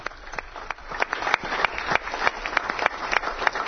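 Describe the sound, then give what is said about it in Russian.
An audience at a Kabbalah centre gathering claps for participants in other centres: steady, dense applause that holds an even level throughout. “Давайте похлопаем всем этим людям.”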